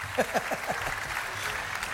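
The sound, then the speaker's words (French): A festival audience cheers and claps in the Roman theatre at the Nuits de Fourvière. A few sharp descending whoops stand out at the start over continuous applause and crowd noise. “Et les fans crient.”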